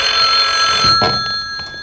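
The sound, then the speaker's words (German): A telephone rings at a central office switchboard with a steady, bright ringing tone, rich in high overtones, that sounds loud and continuous throughout, with no voices. “Eine Stunde verging, bis endlich das Telefon in der Zentrale klingelte.”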